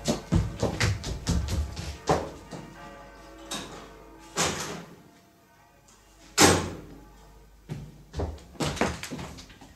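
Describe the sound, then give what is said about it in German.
A door being unlocked and opened, heard as a loud, irregular series of sharp thuds and clunks with short quiet gaps between them and no voices. “Ich werde ihm aufschließen.”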